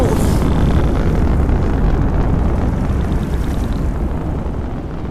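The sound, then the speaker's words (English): Radio-drama effect of an alien spaceship blasting off from Earth: a loud, continuous roaring rumble heavy in the low end with a hissing top, holding steady and easing slightly toward the end. “the last Zan leaving Earth forever. They're blasting off! There they go!”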